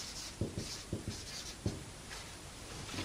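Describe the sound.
Writing a word by hand in French: a few faint, short scratching strokes in an uneven rhythm over a low, steady background hiss, with no voices.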